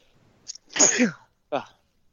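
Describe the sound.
A single loud sneeze bursts out sharply after a brief faint intake, followed by a short softer sound.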